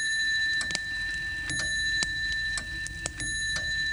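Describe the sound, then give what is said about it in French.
A pendulum clock striking six o'clock, bright sustained ringing tones layered with a series of sharp metallic strikes and ticks. “la pendule interrompt Jo dans sa colère. Elle sonne 6 heures”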